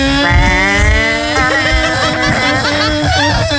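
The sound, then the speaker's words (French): A moped engine runs with a steady, buzzing harmonic drone, its pitch wavering slightly through the middle as it revs, loud and alone with no talk. “Saute sur ma mobilette. Attends, la mobilette démarre, là, c'est parti.”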